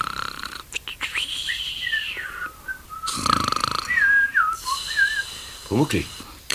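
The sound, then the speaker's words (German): A voice imitates snoring, faking sleep while tucked in bed: rasping snort-like inhales alternate with high, warbling whistled exhales, repeated several times in an exaggerated, comic rhythm. “Ja, den Schnarcher, den kenne ich, Pumuckl. So schnarchst du ihn echt nie.”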